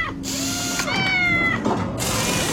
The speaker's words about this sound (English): Here's a cat fixing a car.